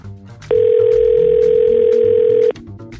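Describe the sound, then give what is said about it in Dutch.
Outgoing telephone call with a dial tone: a single steady, continuous tone about two seconds long, loud and unbroken, starting and stopping abruptly over faint background sound. “En nu gaan we bellen met ons politiek orakel van vandaag.”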